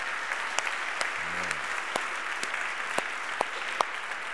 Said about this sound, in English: Let's give our band another round of applause just for